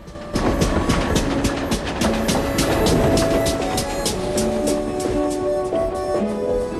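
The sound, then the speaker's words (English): A steam train puffs into a station with rapid, regular chuffs over a heavy rumble. Thin, squealing tones come in during the second half. “The man moves aside as the train puffs in.”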